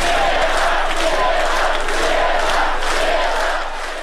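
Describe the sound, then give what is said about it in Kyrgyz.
Crowd of roughly 63,000 at an opposition rally in Minsk supporting Svetlana Tikhanovskaya, a loud, dense roar of many voices shouting and chanting in pulsing waves, fading slightly near the end. “30 июлда президенттикке ат салышып жаткан Светлана Тихановскаяны колдоп 63 миңдей адам Минскидеги митингке чыкты.”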